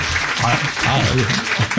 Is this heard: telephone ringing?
no